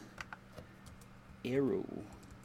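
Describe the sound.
Typing on a computer keyboard comes through as a few sparse, light key clicks. A brief voiced sound cuts in partway through, and the tapping then continues faintly.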